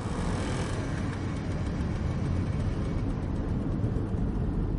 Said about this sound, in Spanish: el coche arranca